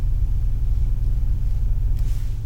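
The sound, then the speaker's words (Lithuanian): Steady low rumble from a Subaru Forester four-wheel-drive car while driving, a dense, even drone that holds loud and unchanging throughout with no clear shifts in pitch. “Čia Subaru Foresteris. Tai man tai jinai labai patinka, nes keturiais varoma.”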